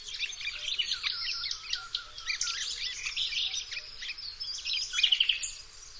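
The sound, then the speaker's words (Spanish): Birdsong of nightingales and great tits in an oak wood on a spring morning: many bright, overlapping chirps and trills, fairly faint and steady throughout, over a soft low background hum. “Comenzamos percibiendo cómo nos muestra la naturaleza toda su frescura en el caso de este robledal que brilla en una mañana de primavera. Los ruiseñores, los carboneros y el cuco en la lejanía”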